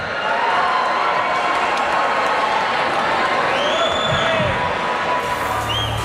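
A crowd at the Calgary Stampede cheers and applauds a welcome for a country singer, with steady clapping, whoops and whistles running throughout.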